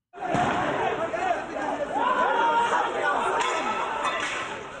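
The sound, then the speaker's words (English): A protest crowd from a populist movement in Tunisia clamors loudly, a dense mass of many shouting voices sustained throughout. “Sound there from a populist movement that has united to challenge the elected Islamist leadership in that country.”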